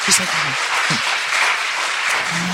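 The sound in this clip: Applause from an audience welcoming a pastor, a steady wash of clapping that holds at an even level for a couple of seconds, with brief spoken voices poking through.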